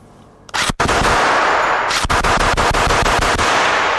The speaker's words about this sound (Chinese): 匪徒一般用的就是这种 AK-47， 这一把是我们是有效果的，它会带抛壳和火光，我给大家演示一下。